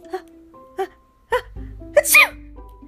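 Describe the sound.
A fairy's sneeze in a children's story bursts out as one sharp, breathy blast after a few short vocal sounds, over a low steady drone.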